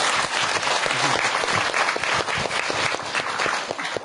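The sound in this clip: Enthusiastic applause from an audience, a thick, continuous patter of many hands clapping that stays loud and steady before easing slightly at the end.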